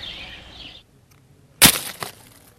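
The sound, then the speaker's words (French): A chestnut falls in a park, landing as one sharp, crackling knock followed by a short rustle, standing out after a faint hiss and near silence. “Vous l'avez entendu ? C'est le doux bruit de la châtaigne qui tombe.”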